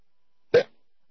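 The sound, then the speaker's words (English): A single hiccup, a short, sharp vocal gulp that stands alone against near silence. “And hiccups. Somebody scare me real good. Make the hiccups go away.”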